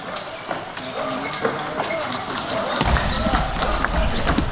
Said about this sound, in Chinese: 一上来孙颖莎还是站在正手半台来发球